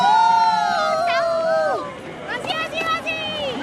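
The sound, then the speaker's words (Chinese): Chinese supporters shouting cheers at the roadside of a race in Paris: raised voices call out in loud bursts, at first overlapping, then in a quicker run of rhythmic chanted shouts. “我们听到了场边来自中国的声音，听到了来自祖国的加油声。”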